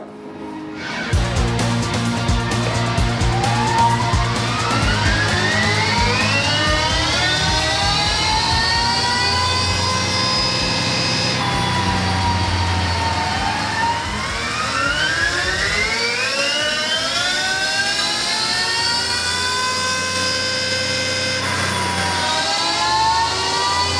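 An electric bike running on a dyno gives off a loud, high motor whine that climbs steeply in pitch in long sweeps, drops back, then climbs again over a steady mechanical roar.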